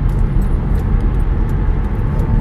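A car driving on the road, heard from inside, makes a loud, constant low rumble of engine and road noise that stays steady throughout.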